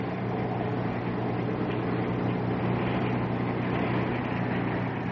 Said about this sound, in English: They've cut the motor back. They're coming right in.